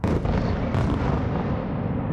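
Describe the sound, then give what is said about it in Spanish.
Bombs exploding during an attack: a loud, dense roar of blasts rumbling throughout, with a sharper burst partway through. “Así es como se ven las bombas y así como se escuchan.”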